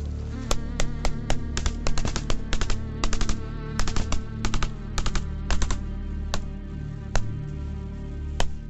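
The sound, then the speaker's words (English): Gunfire in a gunfight during a military platoon patrol, many sharp cracks in irregular bursts, some in quick clusters and others spaced apart, each shot snapping out cleanly against a low steady background. “5 minutes on, and the gunfight continues. Come on, let's go, let's go! Keep firing, lads!”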